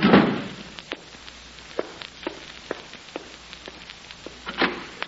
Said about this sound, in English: I know, but I've got to shut that door